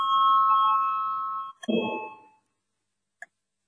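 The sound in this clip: A voting bell rings in the Latvian parliament chamber: a steady electric ringing tone lasts about a second and a half, then a short duller burst and a single faint click follow.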